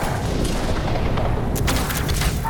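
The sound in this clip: Missiles exploding in a dramatic battle: a dense, continuous rumbling roar with a few sharp blasts cracking through past the middle.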